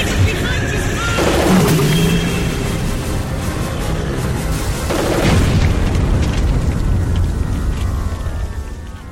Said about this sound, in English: Those pressure tanks could explode!